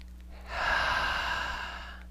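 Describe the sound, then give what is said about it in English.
A single long deep breath, a soft, steady airy rush that swells and holds for about a second and a half before easing off, with no talking. “Nice deep breath, please.”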